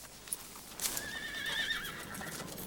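Horses ridden by a gang of men over a hill: one wavering, high whinny stands out above soft hoof clatter and a steady rushing background, all fairly faint.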